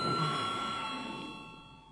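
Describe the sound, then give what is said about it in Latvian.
An electric bell rings in a parliament chamber to call members before a vote on a health care financing bill. The ringing is a steady, sustained tone that fades gradually over about two seconds. “lūdzu zvanu”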